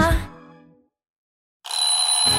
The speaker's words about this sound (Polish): Budzik już dawno zadzwonił, a ty nie możesz wstać?